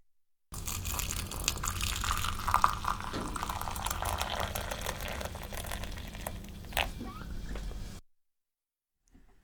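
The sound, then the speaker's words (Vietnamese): Hot water poured onto tea leaves in a small teapot makes a steady, soft, hissing splash that runs for about seven seconds and then stops abruptly. “Cho lá trà vào một ấm trà nhỏ, rồi đổ nước nóng vào.”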